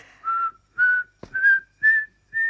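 A person whistles five short, clear notes in an even rhythm, the pitch edging slightly upward across the phrase, with a sharp click between the second and third notes.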